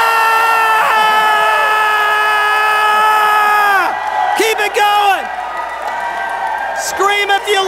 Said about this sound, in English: for one minute, are going to scream as loud as we can. Is everybody ready? One, two, three.